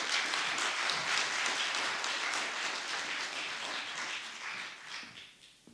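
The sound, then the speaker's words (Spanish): Audience applause welcomes a doctor taking the stage at a psychology lecture series: many hands clapping in a dense, steady wash that slowly thins and fades toward the end. “Le damos un gran aplauso al doctor Pablo.”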